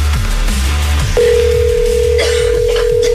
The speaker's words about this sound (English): Let's give someone a call and tell them their week is about to get a lot better.